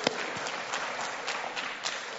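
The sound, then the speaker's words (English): Church audience clapping for a newborn baby's family: soft, continuous clapping from many hands, with a few sharper individual claps popping out of the faint wash. “Can we clap it up for them and just be praying for them?”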